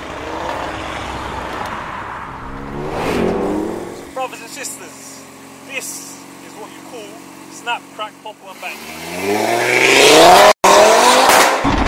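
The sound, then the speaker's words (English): Engine of a four-wheel-drive car with a 2.5-litre engine revving hard, with loud roaring bursts at the start and end and a quieter stretch between them broken by a few sharp pops and bangs. “you hear a lot of loud pops and bangs. It's really, really nice. 2.5 litre engine. It's got, you know, four-wheel drive. So all of that power goes straight to the wheels and you're gone.”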